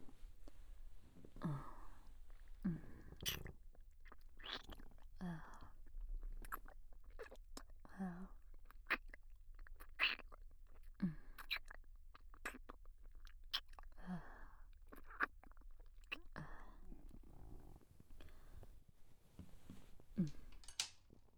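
Chewing and munching on soft, sweet food: many short, moist mouth noises in an irregular rhythm, fairly faint and heard alone.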